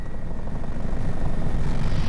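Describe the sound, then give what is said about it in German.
A rescue helicopter: a loud, steady engine roar with a fast rhythmic rotor thump running throughout and no voices. “Wenn wir in Hamburg landen, ist das ja meistens, die Kolleginnen und Kollegen werden abgeholt von der Polizei und ich bleibe am Hubschrauber stehen.”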